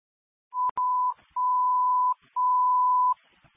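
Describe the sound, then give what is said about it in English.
A phone disconnect tone for an invalid number: three steady, mid-pitched electronic beeps, each under a second, with a couple of sharp clicks over the first. “I did a call back multiple times. Not a valid phone number anymore. Makes a disconnect sound.”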